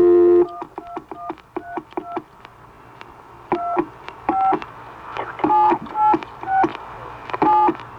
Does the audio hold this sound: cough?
no